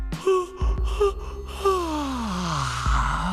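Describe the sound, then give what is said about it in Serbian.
A human yawn: a drawn-out voiced moan whose pitch slides steadily downward for over a second, preceded by a few short breathy vocal sounds. “Ne zevaj sad kad je najzabavnije. Ko zeva? Nisam ja.”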